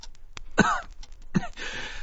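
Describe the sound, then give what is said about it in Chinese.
A thin man in a hospital gown coughs a few times, the rough, harsh bursts spaced apart and followed by a breathy rasp, with no talk. “旁边一个穿着病号服的竹竿男人咳嗽了几声，插话道，”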